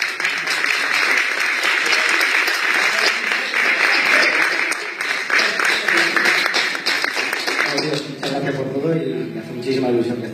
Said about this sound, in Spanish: Y un aplauso para este chico.